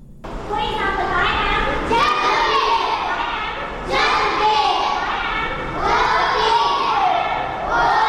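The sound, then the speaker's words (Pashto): Children's voices fill a welfare centre for working children in Peshawar: many overlapping shouts and chatter, loud and continuous throughout, with occasional thuds. “دا اوازونه د خواري مزدوري کوونکو ماشومان لپاره په پیښور کې د رڼا چایلډ ویلفیر فاونډیشن په نامه خوانځي دي”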